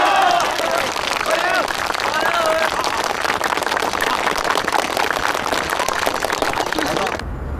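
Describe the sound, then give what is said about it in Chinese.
Applause from a group welcoming a new team member: dense, steady clapping that fills about seven seconds, with a few voices mixed in early, then stops abruptly near the end. “好， 我们的队伍又添新人了，大家欢迎吧。”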